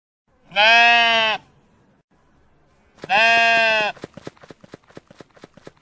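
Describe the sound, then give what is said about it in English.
Sheep bleating: two loud, wavering bleats separated by a short pause, followed by a quick run of sharp hoof-like clatters. “Sheep.”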